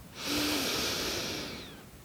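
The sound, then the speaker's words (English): A big, slow breath drawn in during a guided meditation: a steady, airy hiss that swells quickly, holds for over a second and then fades, heard alone without talk. “just take some nice big breaths, breathing in”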